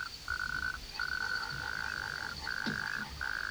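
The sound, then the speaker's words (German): A toad croaks in a few long, rasping trills separated by brief pauses, fairly loud throughout, while a thin steady high tone runs underneath. “Die Kröte ist unverwundbar und wird sehr alt.”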